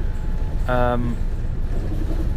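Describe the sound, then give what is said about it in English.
Inside a moving bus, a steady low engine rumble and road noise hold constant throughout, with a brief tonal whine rising above it early on. “I think it's supposed to give you a feel that we are moving on a bus”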